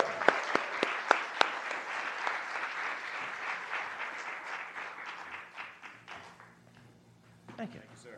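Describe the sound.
Audience applause welcoming a speaker to the stage at a community gathering, soft overall, with a few sharp individual claps at the start. Steady clapping follows and dies away after about seven seconds, and a brief voice comes in at the end.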